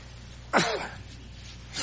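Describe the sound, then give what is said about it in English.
One sudden sneeze from a man in a church, a sharp breathy burst that fades within half a second, then quiet. “I don't know what it is here that making me sneeze here.”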